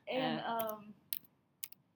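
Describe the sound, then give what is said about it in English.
Computer keyboard keys clicking as a password is typed, two short bursts of sharp taps following a voice at the start, fairly faint and with quiet pauses between. “I'm going to type baby's password back in.”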